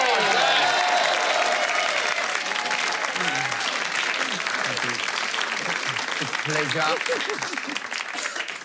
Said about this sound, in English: Can you put your hands together and welcome to the set the former Tasmanian senator and current legend, Jackie Lambie?